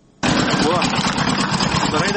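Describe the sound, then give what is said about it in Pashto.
An old sixteen-horsepower generator runs in an area without mains electricity, a loud, steady rumbling drone with a rapid low throb that cuts in abruptly after a brief quiet moment. “برښنا نسته خو یو زوړ شپارس هس پاور جنراتور چالان دی”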